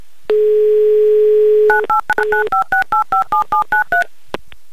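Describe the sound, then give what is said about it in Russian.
A steady telephone dial tone holds for over a second, then a phone number is dialed as a rapid run of short, evenly spaced two-tone keypad beeps, followed by a brief click. “В общем, набираю ваш номер.”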